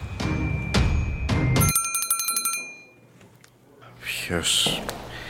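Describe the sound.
A doorbell rings late at night: a rapid, high metallic trill lasting about a second. Voices can be heard talking before and after it.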